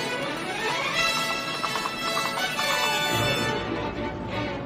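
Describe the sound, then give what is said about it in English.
A horse galloping, quick clip-clop hoofbeats in a steady rhythm over a dense, continuous background. “Atop a horse, Bart gallops out of the lot and onto Olive Ave.”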